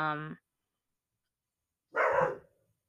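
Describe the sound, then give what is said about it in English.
A pet dog barking, two short barks separated by a silent gap, moderately loud with nothing else around them. “Do you hear that dog barking? That's my dog.”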